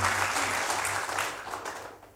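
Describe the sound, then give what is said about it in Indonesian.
Audience applause in a hall of a regional government building at a national dialogue event, thick continuous clapping that holds steady and then tapers off toward the end. “Tepuk tangan yang paling meriah bagi sekalian.”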